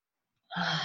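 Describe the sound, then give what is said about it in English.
A person takes a deep inhalation of cardamom essential oil from hands just rubbed together: half a second of silence, then one sustained, fairly loud breath in that continues to the end. “You rub your hands together. You deeply inhale.”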